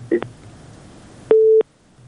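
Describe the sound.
Telephone busy tone after a call is disconnected: a brief blip, then a single steady mid-pitched beep that cuts off sharply, heard alone.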